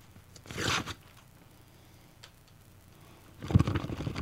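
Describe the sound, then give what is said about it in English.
Tearing of a mailed package holding a book, heard as two bursts of rough ripping and crinkling separated by a quiet pause, with no talking. “I got this in the mail yesterday to our box. It is a book, more than likely. This is from Smith Publicity. We frequently get books from them. So I'm gonna open this up.”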